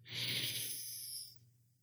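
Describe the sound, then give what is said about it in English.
One long, deep breath during a guided breathing exercise: a soft, airy hiss that swells, holds for about a second and then fades, heard alone without talk. “So let's take our first deep breath in, exhale, second,”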